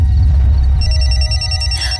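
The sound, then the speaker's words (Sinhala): A telephone rings with an incoming call, a steady bright electronic ring that begins just under a second in and continues to the end over a low background rumble. “ඔයාට call එකක් නේද?”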